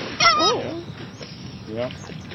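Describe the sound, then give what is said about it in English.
A gander honking beside a nesting mother goose, a burst of harsh, nasal honks near the start and another shorter burst near the end, with quieter stretches between. “The mother goose is hissing, and then the gander comes right at us.”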